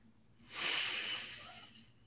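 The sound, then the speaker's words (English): One slow, deep breath taken during a guided relaxation exercise. It is a soft, airy hiss that swells over about half a second, then fades gradually as the air is let out. “So nice full in-breath and then a complete exhalation.”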